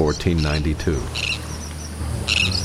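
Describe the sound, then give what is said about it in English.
Sandwich tern calls in the Bahamas: a brief voice at the start, then two bursts of harsh, grating, high-pitched calls separated by a pause. “If you should happen to travel to the Bahamas this winter, you may see descendants of the sandwich terns that were there when Columbus's ships landed on October 12th,”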